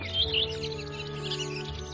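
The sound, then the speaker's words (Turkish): Thrush calls ring out as brief, high chirps near the start over a steady, droning musical bed of sustained low tones. “Ardıç kuşlarının kendi aralarında gösterdikleri dayanışma ve yardımlaşma da bir başka yaratılış mucizesidir.”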